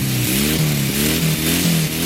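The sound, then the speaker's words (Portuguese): A car engine running and revving, a loud continuous mid-pitched drone that climbs in repeated surges every third of a second or so, with no voices over it. “Ligando a ignição, estou de partida.”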